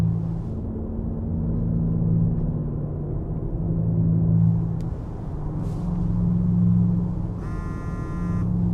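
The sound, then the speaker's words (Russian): Steady low engine rumble from a black sedan driving through city streets in Tehran in the morning. The drone swells and eases gently throughout, and a short electronic buzzing tone sounds near the end. “Масуд едет по утреннему Тегерану, постоянно поглядывая в боковое зеркало.”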